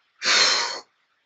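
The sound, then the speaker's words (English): One deep breath is heard as a single breathy rush of air lasting well under a second. It is loud and stands alone against silence. “take a deep breath and release it”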